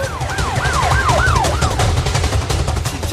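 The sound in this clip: A police car siren wails in rapid rising and falling sweeps, each cycle lasting about a third of a second, over a low rumble. The sweeps fade out after about two seconds.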